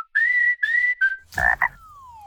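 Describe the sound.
A cartoon-like frog croaking sound: a few steady, whistly tonal calls, then a rough, throaty two-part croak, ending in a long, smoothly falling tone, all fairly loud with no talk.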